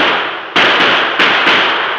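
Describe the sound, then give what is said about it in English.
Gunshots fired from behind in a dramatized Old West ambush among brush and boulders: a few sharp, loud cracks in quick succession over a continuous rushing noise bed, with no voices. “A shot came from behind us.”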